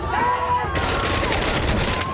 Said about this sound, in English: The soldiers open fire on them.